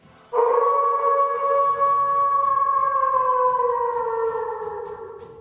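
A grey wolf howls in one long, unbroken call: a clear, harmonic tone that holds steady and then slowly slides lower, fading a little toward the end, with nothing else heard.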